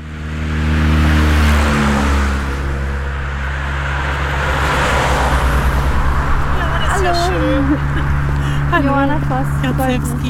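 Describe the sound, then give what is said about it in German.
Road traffic runs on an expressway beside a field path near Delitzsch. Vehicles make a continuous low rumble and whir with passing engine noise, and a voice is briefly heard over it toward the end. “Feldweg klingt erstmal nach Natur, tatsächlich sind wir hier aber zwischen einer Schnellstraße und einer Müllhalde unterwegs.”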